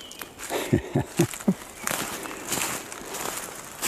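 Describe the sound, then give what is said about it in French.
Footsteps walking on a forest trail thickly covered with dead leaves: four crunchy steps in a steady rhythm, followed by continued softer rustling and crackling underfoot. “Donc, là, nous marchons sur une piste qui est recouverte de beaucoup”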